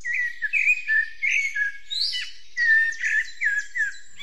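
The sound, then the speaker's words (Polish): Several small birds sing in a steady stream of high, bright chirps and warbling trills. Short phrases overlap and repeat across the whole stretch with no pauses, and no voices are heard. “No jak ładnie pośpiewały ptaszki.”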